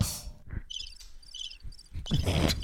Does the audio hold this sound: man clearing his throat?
no

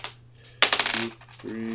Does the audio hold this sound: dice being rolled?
yes

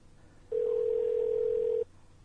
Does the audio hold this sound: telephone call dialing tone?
yes

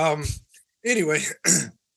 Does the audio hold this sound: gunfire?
no

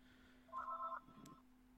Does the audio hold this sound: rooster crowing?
no

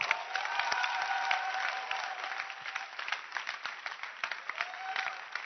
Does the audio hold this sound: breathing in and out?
no

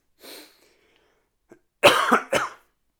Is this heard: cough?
yes

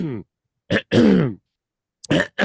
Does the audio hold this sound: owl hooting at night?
no

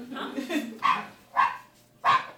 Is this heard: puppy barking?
yes

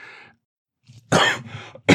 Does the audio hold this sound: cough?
yes

